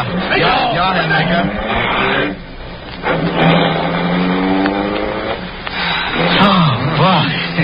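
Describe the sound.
A car engine roars and revs as the vehicle drives off at a wartime checkpoint, under ordered threats to run someone down. The sound is loud and sustained, with its pitch shifting. It dips briefly before swelling again, and voices are mixed in.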